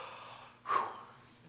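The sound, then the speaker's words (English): A group draws in one deep breath together on cue: a single soft, airy inhale swells briefly, then fades back to near quiet. “So everybody, take a deep breath with me.”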